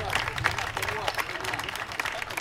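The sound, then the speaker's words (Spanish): Audience applause as a song is dedicated to the hosts of the house. Irregular, fairly loud claps blend with crowd chatter and voices. “Por favor, queremos dedicarle una canción al amigo, a la gente de la casa. Un aplauso.”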